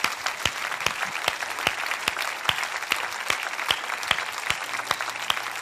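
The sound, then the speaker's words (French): A church audience claps along in a steady rhythm, with sharp, evenly spaced claps over a continuous wash of crowd applause that lasts throughout. “levons-nous et acclamons le Seigneur? Lève-toi, lève-toi, acclame Jésus”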